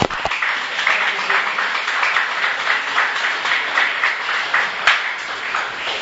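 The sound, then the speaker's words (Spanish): Church audience applause in Lima: dense, even clapping that continues steadily through the whole clip with no talk over it. “Un aplauso al pastor Ryan y a Mario.”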